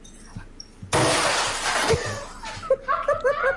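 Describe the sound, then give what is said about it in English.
An object is smashed with a baseball bat. A sudden loud crash of breaking material is followed by about a second of rattling debris, then scattered smaller clatters and knocks. “I'm going to smash this. I think I'm going to do it with a baseball bat.”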